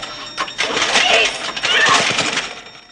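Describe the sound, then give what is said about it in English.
A mini generator is started with a pull cord: a quick rip of the cord, then the small engine catches into a rough, rattling, fairly loud running drone that holds steady. “She runs down a spiral staircase and pulls the cord on a mini generator. Start!”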